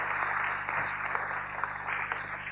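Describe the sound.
Congregation applause welcoming a speaker at a Sunday morning church service: steady, dense clapping that carries on throughout at moderate loudness, with no talk over it.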